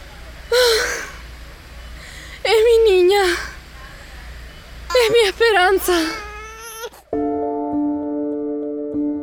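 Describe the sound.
A newborn baby girl cries in a radio drama, with a few loud wailing bursts and gasping breaths between them, followed by sustained tonal music.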